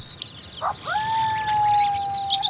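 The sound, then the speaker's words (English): Early spring birdsong at a desert spring oasis in Death Valley: a few short, sharp chirps give way to a long, clear, steady whistled note, with faint higher twitters scattered over it, and no voices. “The early spring bird songs at this desert oasis”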